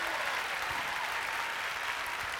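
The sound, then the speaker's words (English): Congregation clapping in a church service, a faint, even wash of many hands applauding together that holds steady from start to finish, with no voices over it. “Now, if you believe every curse is broken over the word you said, give the Lord a clap offering.”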